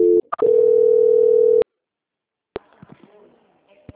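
Telephone call-transfer tone on a bank call: a few short beeps, then one steady mid-pitched tone held for about a second, followed by silence and faint line noise with a click.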